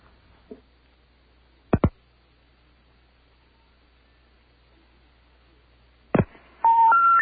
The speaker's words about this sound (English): All right, we're going to dial up the pet cemetery people and see just what happens.